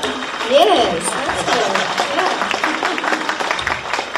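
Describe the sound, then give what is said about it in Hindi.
Audience applause at a live entertainment show: a steady, fairly loud patter of clapping runs throughout, with a voice rising over it near the start. “तालियों की आवाज थोड़ी कम आ रही है ऐसा लगता है।”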